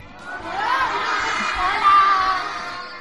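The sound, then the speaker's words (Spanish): Schoolchildren at a public school in Albacete shout and cheer together as a crowd, a loud continuous roar of young voices that swells and peaks near the end. “Chicos, ¿podéis hacer un poquito de ruido que os escuchen?”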